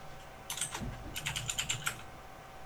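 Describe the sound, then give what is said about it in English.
Typing on a computer keyboard into a new browser tab: a quick, faint run of many light key clicks in an irregular rhythm. “Open up a new tab. Okay. And type in about colon config.”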